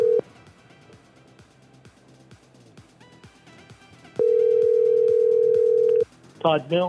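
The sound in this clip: Ringback tone of an outgoing telephone call waiting for someone to answer: a steady mid-pitched tone, first cut off briefly, then sounding for about two seconds. A voice begins just after it ends.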